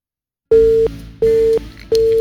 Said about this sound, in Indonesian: Saya yang bisa mencoba kembali ya. Telepon Anda terputus ya.